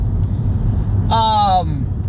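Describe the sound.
Low steady rumble of a car engine while the speaker is driving, a continuous drone under a brief burst of voice.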